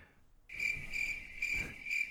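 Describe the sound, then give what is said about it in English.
Classic cricket chirping: a steady, high, rapidly pulsing trill that starts abruptly after half a second of quiet and carries on evenly to the end. “Yeah, I decided to go with classic crickets.”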